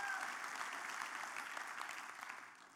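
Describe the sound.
A church audience applauds during a sermon: a sustained, fairly faint patter of many hands clapping that holds steady, then thins and fades toward the end.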